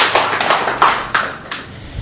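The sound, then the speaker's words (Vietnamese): Congregation in a church clapping, heard as a few loud, sharp claps spaced unevenly rather than a dense wash of applause. “Cho một tràng pháo tay đi thưa anh chị em.”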